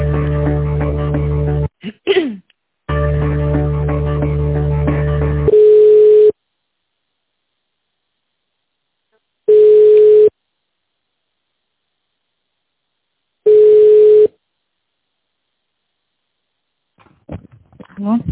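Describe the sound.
Telephone line tones during a call transfer: after a stretch of voices and busy sound at the start, three steady, mid-pitched beeps sound alone, spaced about four seconds apart, with faint noise near the end.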